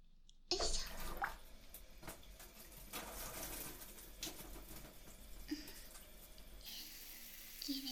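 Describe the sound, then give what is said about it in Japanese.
Water is poured over a body to rinse off while bathing: a steady, loud splashing rush that starts abruptly after a brief quiet moment and continues without pause to the end. “じゃあ流しましょう。”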